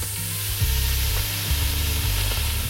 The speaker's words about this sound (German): Da kommt jetzt rein der Speck. Der wird jetzt erstmal schön ein bisschen angebrutzelt, angebraten.